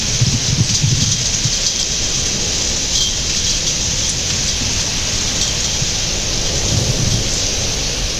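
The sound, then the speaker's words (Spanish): Steady rain falls with thunder, a continuous dense hiss of drops with low rumbles of thunder rolling near the start and again near the end. “ahora que empezó a llover”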